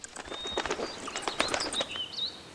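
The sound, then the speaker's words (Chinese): A myna bird calls in a quick, uneven series of sharp chirps and thin whistled notes, some sliding upward, fairly faint and with no talking. “原来是八哥的声音啊。”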